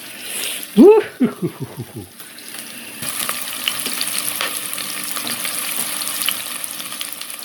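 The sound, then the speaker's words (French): Onions frying in hot oil for a rougail: a short tonal sound, a near-quiet gap, then a steady crackling sizzle with scattered pops that runs to the end. “Philippe commence la recette en faisant chauffer de l'huile pour accueillir les premiers ingrédients pour ce rougail chevaquine. Il commence par y mettre les oignons”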